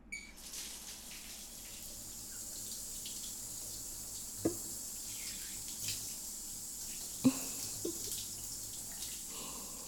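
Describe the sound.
Water runs steadily from a tap to rinse someone off: a low, continuous hiss with a few brief knocks.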